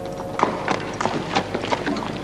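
A horse's hooves clip-clop up an entrance ramp in a steady series of many hollow strikes at an even walking rhythm, over a constant low background.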